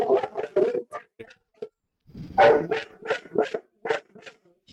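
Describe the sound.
Dog barking: a loud, rapid series of barks in two bursts, the second longer and denser, with no other sounds around them.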